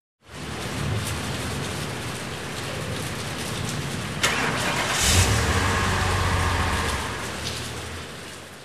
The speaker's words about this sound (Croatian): Na autobuskoj stanici.